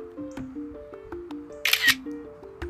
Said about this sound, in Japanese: ラジオ中に写真をこんな長々撮るなっていうね